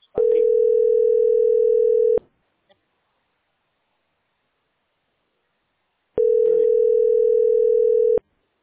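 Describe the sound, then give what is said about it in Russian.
A steady, mid-pitched telephone line tone sounds twice while a number is dialed. Each tone lasts about two seconds, and about four seconds of silence separate them. “Набираю полный номер.”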